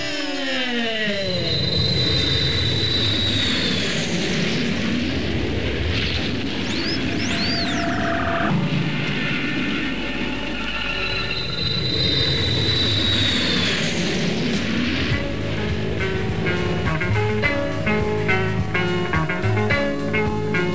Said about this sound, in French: Alors on décolle sur le champ.